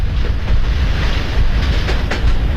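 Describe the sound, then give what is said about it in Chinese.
A special train travels on rails with a loud, steady low rumble and a faint rolling clatter, with no voices. “走到半路，火车掉头驶向距离法国边境不远的新指挥部”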